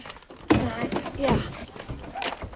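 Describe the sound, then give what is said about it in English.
A folding chair being loaded into a car boot makes a sharp, heavy thunk, followed by a few softer knocks and scraping shuffles as it settles. “He puts the chair into the boot.”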